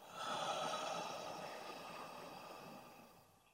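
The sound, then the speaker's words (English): A deep breath is drawn in through the nose and released as a sigh from the mouth. The soft, airy breathing swells quickly, stays long and steady, then tapers away into quiet. “First, take a deep breath in through your nose and sigh from your mouth.”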